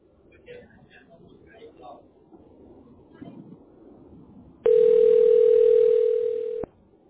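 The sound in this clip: A telephone tone on a repeat call to a help line. A single long, steady electronic tone sounds loud and alone, following a stretch of faint low murmur, then stops abruptly.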